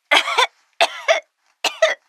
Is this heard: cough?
yes